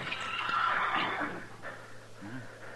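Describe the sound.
A saddled horse with a bedroll tied behind, standing tied at a corner, gives a faint high whinny early on, followed by quieter, softer sounds.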